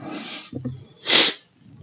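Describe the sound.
A single loud, breathy sneeze bursts out and quickly fades, preceded by softer throaty sounds and followed by faint rustling.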